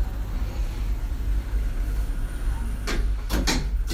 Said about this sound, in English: fermeture des portes. Doors closing.